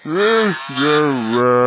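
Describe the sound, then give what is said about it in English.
A loud, low moo from a cow box standing in for a voice box: two long lowing calls, the first dipping in pitch at its end, the second held steadier and longer. “If you replace your voice box with a cow box.”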